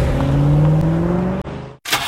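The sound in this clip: A car engine starting in a radio ad: a steady droning hum that creeps slightly upward in pitch, cuts out abruptly, then gives way to a short, noisy burst.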